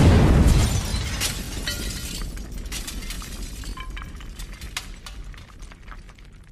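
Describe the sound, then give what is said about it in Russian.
A loud explosion in a station blasts a door off, with glass shattering and plaster and tile pieces raining onto a concrete floor. A heavy, broad burst at the start fades into a long, crackling scatter of breaking glass and debris, with no voices. “Следом обломками осыпалась на спину сорванная взрывной волной дверь, штукатурка, куски плитки. Взрыв показался оглушительным.”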